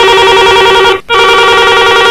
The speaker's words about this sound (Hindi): तो भैया हरो देखो जे बजन लगे अपन सभी जनन की फोन।